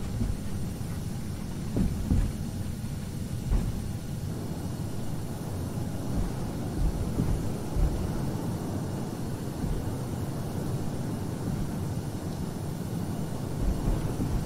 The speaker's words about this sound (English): You're now the loudest plane on the planet at an air show that you're going to hear is the F-22 Raptor